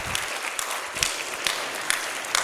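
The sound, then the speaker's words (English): Applause from a church audience, a steady wash of many hands clapping with a few sharper individual claps standing out, moderately loud and continuous, with no talk over it. “Yes, let's give the Lord a round of applause.”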